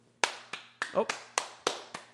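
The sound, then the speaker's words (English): Hand clapping: seven sharp, even claps at a steady pace, with a brief voice sound partway through over a low background hum. “No, I'm clapping for you.”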